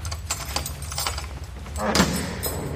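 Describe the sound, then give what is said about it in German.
Keys jingle and scrape in a door lock as it is unlocked, a few faint metallic clinks with a sharper click near the end. “Schließen Sie auf. Ja, sofort, Professor.”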